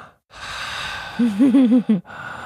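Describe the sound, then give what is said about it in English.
A father imitates his young daughter taking huge breaths: a long, airy inhale, then a voiced, wavering exhale in short pulses that cuts off abruptly. “and then she just made, you know, took these huge breaths”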